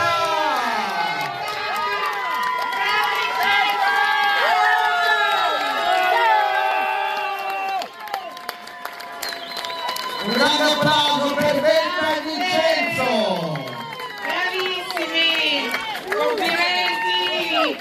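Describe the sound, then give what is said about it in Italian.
Crowd cheering and shouting at a festival celebration in Trani honouring an Ironman finisher, with loud whoops and high voices sustained throughout and a brief dip partway through. “Facciamo un grande applauso per la nostra”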